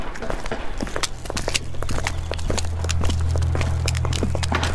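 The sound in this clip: Footsteps walking into a hospital, a rapid run of many crisp steps at a brisk, steady pace over a low rumble that swells partway through, with no voices.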